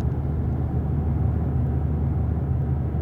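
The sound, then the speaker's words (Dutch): Steady low road rumble inside a moving car crossing a viaduct in Brabant, an even engine and tyre drone with no voices. “We zitten in de auto. We zijn al een uur onderweg.”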